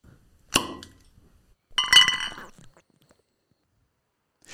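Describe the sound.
A bottle of Berliner beer is opened with a couple of sharp glassy clinks and pops, each trailing off briefly, followed by quiet and a faint click at the very end. No voices are heard.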